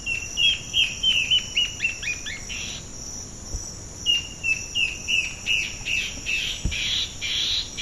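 A male and female bird sing a duet of rapid, high chirped notes in two bursts separated by a short pause, over a steady high insect-like buzz.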